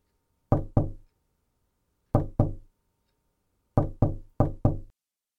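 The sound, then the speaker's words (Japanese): Knuckles rap on a door eight times, in two pairs and then a quicker run of four, each knock short, sharp and fairly loud against silence. “戸を叩く音がします。”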